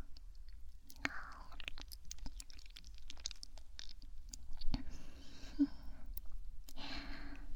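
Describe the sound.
Quiet, close chewing and eating, with soft wet clicks and mouth sounds scattered throughout and faint breaths and sighs in the pauses.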